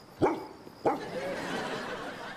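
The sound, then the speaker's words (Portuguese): Two sharp barks from a dog on a sofa in a sitcom scene, about half a second apart, followed by a continuous noisy wash. “Jackson, o que é que aquele cão está a fazer em cima do meu sofá?”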